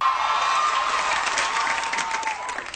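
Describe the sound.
A sitcom studio audience cheering and clapping, a loud, continuous roar of crowd voices and whoops that holds steady throughout and eases off only slightly at the end.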